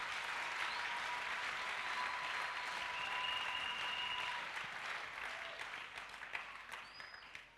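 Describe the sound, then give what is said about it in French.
A church audience applauding during a sermon, with a dense, even patter of many hands that holds steady and then thins and fades over the last few seconds, joined by a few faint tonal sounds. “Et acclamer ce Dieu, un Dieu comme ça.”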